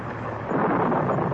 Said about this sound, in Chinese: 一小时又一小时，他们在暴风雨里挣扎着